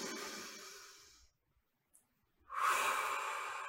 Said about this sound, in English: And we'll do that one more time, okay? So a nice deep breath in.